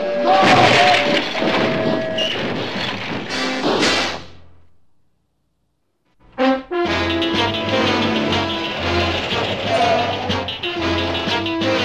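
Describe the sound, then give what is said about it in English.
A building is destroyed with loud smashing and crashing: a long run of dense debris noise, then about two seconds of silence, a single thud, and another long stretch of crashing. “Now destroy the building.”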